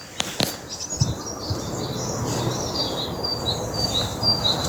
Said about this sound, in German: Das singen die Vögel.